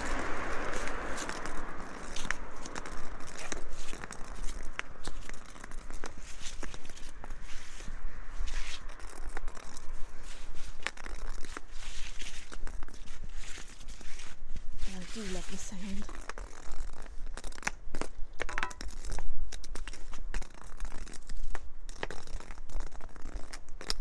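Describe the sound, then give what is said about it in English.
Footsteps crunch through fallen leaves on pavement, a steady run of crisp crackling steps that continues under a person talking throughout. “walking a bit further than I need to really, because I think there were some good leaves along here.”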